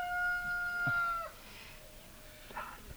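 A rooster crows, a faint, steady tonal call over a noisy background, followed by a softer, shorter call.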